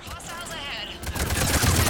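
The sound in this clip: An assault rifle fitted with an extended barrel fires in a video game. A voice speaks first, then a rapid burst of gunshots takes over, growing louder to the end.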